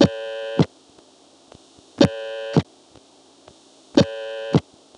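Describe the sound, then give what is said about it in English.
Telephone line tone on a call with a second dial tone, answer supervision clicks along the way: three buzzy harmonic tone bursts, each about half a second, repeating every two seconds, with sharp clicks at their starts and ends and faint ticks between. “the second dial tone will sort of take over and start toning by itself. You won't hear the actual tone from the destination. Instead, the second dial tone will rhythmically follow it, so that what should sound like this”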